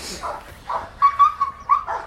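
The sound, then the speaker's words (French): A possessive police dog gives several short, high yips or whines in quick succession, sharp tonal bursts over a quiet low background, with no voices. “C'est le chien qui est très possessif à l'objet.”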